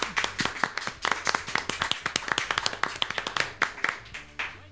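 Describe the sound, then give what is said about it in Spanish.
Hands clap in many crisp, sharp claps at a quick, fairly even rhythm, loud and without talk. “Yo creo que me merezco un aplauso.”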